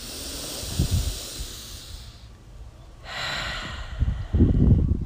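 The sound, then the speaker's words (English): A deep breath drawn in and let out during a breathing exercise: two long airy hissing breaths, with softer low rumbling between and after them. “Another. Big, big breath. Final time.”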